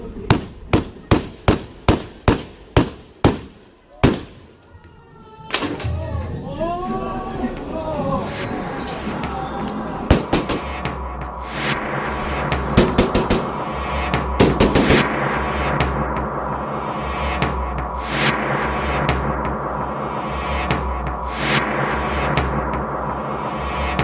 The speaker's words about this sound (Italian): prima ancora di varcare la soglia, alza il fucile e comincia a sparare.